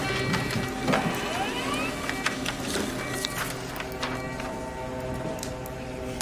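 A printer runs a print job with a continuous mechanical whir, sliding motor tones and scattered small ticks and clicks, steady in loudness throughout.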